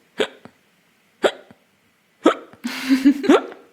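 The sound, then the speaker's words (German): Hard, forceful hiccups sound a few times at roughly one-second intervals, each a sharp gulping burst. A longer, noisier voiced burst follows near the end, with one more hiccup inside it. “Ja, das hört sich bei dir auch immer wie die härtesten Schluckaufs der Welt an.”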